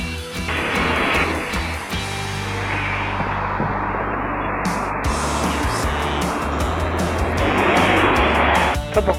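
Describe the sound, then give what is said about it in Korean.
Engine and road rumble from a city bus on its regular route, a loud, steady drone with deep low tones that holds throughout, broken by a brief hissing burst near the middle. “나는 항상 같은 버스 40-1을 타고 간다.”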